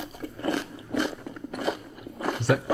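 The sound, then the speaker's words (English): Close, loud crunching and chewing of food that is crunchy and slushy at the same time, like a frozen slush drink. Several dense crunching bursts arrive in a roughly regular rhythm. “Is that Frosted Flakes? No. It's like Slurpee and Crunchy at the same time.”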